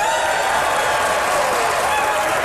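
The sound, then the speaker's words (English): Married couples in a live audience cheer and applaud after being called on to make some noise, a dense, steady roar of clapping and shouting that holds at full strength from start to end with no talk over it. “How many married folks we got here? Married folks, make some noise out there.”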